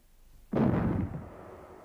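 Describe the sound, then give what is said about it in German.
A single booming salute shot from a small cannon, with a sudden sharp blast followed by a rumbling decay that fades over about a second. “Zwei kleine Kanonen schossen harmlos wie ein Spielzeug zum blauen Himmel an.”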